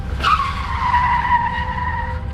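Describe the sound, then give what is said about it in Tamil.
Tires squeal as a speeding car brakes suddenly after running over something in front of it. A single sustained high squeal dips slightly in pitch and holds for about two seconds over a low rumble. “வேகமாக போயிட்டு இருந்த அந்த நேரத்தில் திடீர்னு காரோட ஃப்ரண்ட்டில் எது மேலேயோ ஏறி சடன் பிரேக் போட்டு நின்றுடுச்சு”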